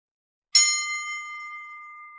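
A single bright, high bell-like chime from a flower turned into a magical artifact, struck once and then ringing on in a long, pure, slowly fading tone.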